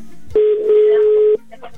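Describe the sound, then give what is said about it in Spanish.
Telephone ringback tone as an outgoing call rings: a single steady mid-pitched electronic tone lasting about one second, then cut off, with faint low background noise before and after. “Venga, marcamos por segundo intento. Y esperemos que ese sea el bueno y que sí nos conteste. Ok, ok. Venga, Marco. Ahí está, ya está sonando.”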